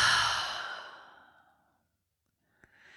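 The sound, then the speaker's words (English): A deep exhale through the open mouth: a single breathy rush of air that is loud at first, then fades into silence, followed near the end by one faint click. “Inhale fully here. Open the mouth and exhale.”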